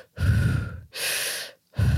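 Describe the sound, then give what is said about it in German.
Fast deep breathing shown as part of a breathing technique of about thirty rapid breaths: a loud, deep inhale, a long breathy exhale, then the start of another sharp inhale, with no talk. “Und da bin ich auf diese Wim Hof-Methode gestoßen, wo du so 30 eher schnelle, tiefe Atemzüge machst. Also wirklich so.”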